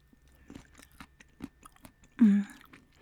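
Quiet, moist chewing of mentaiko, salted pollock roe, with soft irregular clicks and smacks of the mouth, then one brief louder sound near the end.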